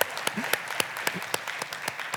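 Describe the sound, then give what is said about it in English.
Church audience applause, with scattered sharp handclaps over a steady patter of clapping that holds at an even level for a couple of seconds. “do you want to clap for that man? Clap for Jesus.”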